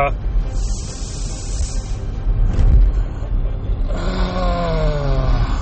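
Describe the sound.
Road noise from inside a moving car, a steady low rumble that runs throughout and swells briefly around the middle, with a faint tonal hum in the last seconds.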